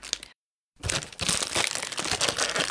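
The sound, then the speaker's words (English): Crinkling and tearing of packaging as a heavily taped Christmas gift parcel with Jiffy foam padding is pulled open: a brief crackle, a short silence, then steady, dense rustling and crunching that runs on to the end. “I can't get into it. I mean, I'm not going to lie. There is a lot of tape on that. Oh, Jiffy Foam, I love you.”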